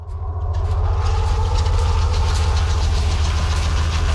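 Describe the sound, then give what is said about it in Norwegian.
Steady low rumble and mechanical clatter of a Swedish tracked vehicle driving through the snowy Norwegian mountains on a dark winter night, loud and continuous throughout with no voices. “William Freyhov Sande gir deg historien om en britisk superstjerne I en svensk beltevogn I den norske fjellheimen.”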